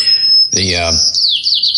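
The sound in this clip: White-crowned sparrow song: high, clear whistled notes, then a quick descending run of slurred notes, loud, with a short human vocal sound overlapping near the start.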